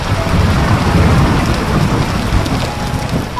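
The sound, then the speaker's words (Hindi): Heavy rain pours steadily in a dense, loud hiss while low thunder rumbles beneath it throughout. “बारिश तेज हो चुकी थी।”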